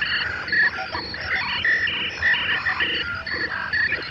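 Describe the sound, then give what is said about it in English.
Insect-like chirping chorus: dense, overlapping trills and croak-like calls that form a continuous, layered and fairly loud texture, with no voices. “We don't just act like insects anymore. We sound like them now, too.”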